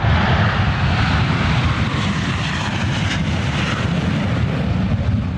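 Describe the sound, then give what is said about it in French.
Steady jet roar from an FA-18 fighter at Payerne airport, a loud, dense, continuous rumble with a hissing upper edge that holds level for the whole stretch without a break, and no talk. “Ce que vous entendez là, c'est le bruit d'un FA-18 à l'aéroport de Payerne.”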